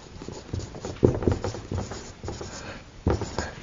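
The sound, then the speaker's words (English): Writing during a Bible lesson makes a string of irregular, scratchy strokes, with a few sharper, louder strikes among softer scraping sounds. “Let me just write it.”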